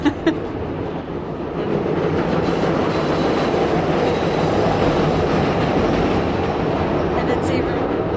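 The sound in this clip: A CTA 'L' elevated train passes by a house, a loud, sustained rumbling roar with rattling clatter that swells within the first seconds and then holds steady to the end.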